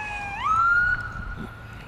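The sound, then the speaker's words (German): An ambulance siren sounds in the background at a marina, one wail rising in pitch and then holding a steady high tone before fading, faint and alone. “Und das, was ihr im Hintergrund gehört habt, war ein Krankenwagen.”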